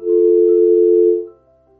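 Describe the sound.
A telephone line gives a steady dial tone after a failed attempt to take a call. One loud, flat, unbroken tone holds for a little over a second, then cuts off, leaving near silence.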